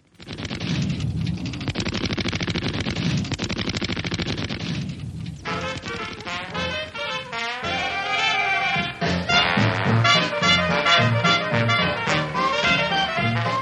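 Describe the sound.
Rapid machine-gun fire aimed at a fly in a comic radio scene: a dense, unbroken rattle of loud shots that keeps going while tonal, music-like sounds join in partway through.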